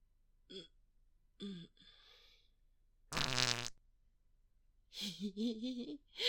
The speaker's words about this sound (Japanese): おならしちゃった。ああ、出る。ごめんね。